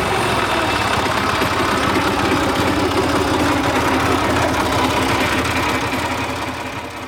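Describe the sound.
A tractor engine runs during peat cutting on a moor, with a dense, continuous rumble and rattle at a constant loud level that eases slightly near the end.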